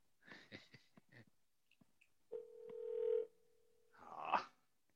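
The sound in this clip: Ringback tone of an unanswered phone call: one long, steady mid-pitched tone that swells in loudness, preceded by a few short clicks and bursts and followed by a brief noisy burst.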